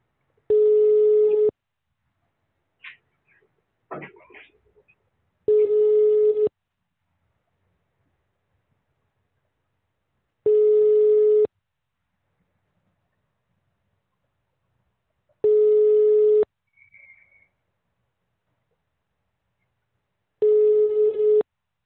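Telephone tones sound while an emergency call is being transferred: five steady, mid-pitched beeps, each about a second long and evenly spaced several seconds apart, with faint handling noises between them.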